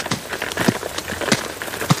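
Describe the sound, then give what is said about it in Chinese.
Rain coming down in a busy, crackling patter of many scattered drops, fairly loud and uneven, with no voices. “这雨好像越下越大了。”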